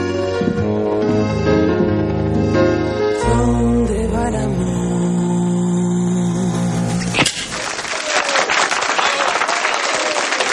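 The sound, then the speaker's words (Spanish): Audience applause in a 1994 noir thriller film. Music with sustained tones plays first, then breaks off into a dense burst of clapping that carries on steadily to the end. “El público aplaude y ella se sienta con el joven.”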